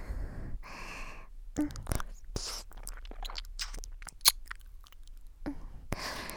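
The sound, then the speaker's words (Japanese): Wet squelching ASMR sounds of a thumb squishing against an ear. Soft, sticky squishes and clicks come in a few irregular bursts at a quiet, close level. “ほら、親指でくにゅくにゅってしたらね、ぬちゅぬちゅした音が聞こえてくる。”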